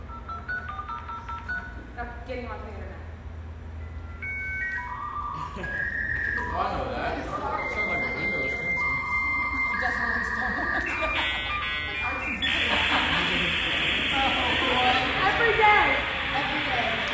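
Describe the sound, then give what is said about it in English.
A dial-up modem connecting a computer to the internet plays a series of telephone dialing tones, then shifting electronic whistles and beeps, ending in a loud, harsh hissing screech of handshake noise. “Okay, guys, this is the sound that it used to make on your phone if you were getting on the internet. But this was also the sound that it made when you were like getting onto the internet, on the computer. Yes. So this is the sound your computer would make if you clicked on Internet Explorer”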